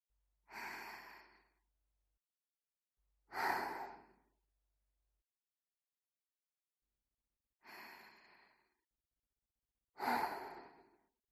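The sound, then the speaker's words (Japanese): Four slow, deep breaths taken while trying to relax, each a soft, breathy rush lasting about a second, separated by quiet pauses of uneven length. The breaths sound alone, with no talk. “ゆっくりと深呼吸しなくちゃ。”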